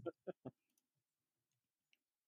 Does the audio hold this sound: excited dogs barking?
no